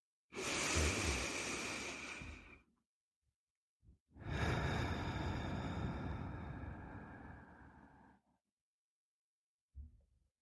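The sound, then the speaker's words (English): A slow, deep breath taken during a guided gratitude exercise: a long, airy inhale, a brief pause, then an even longer, steady exhale. A faint short sound follows near the end. “And now, let's give thanks for the present moment. Let's take a breath.”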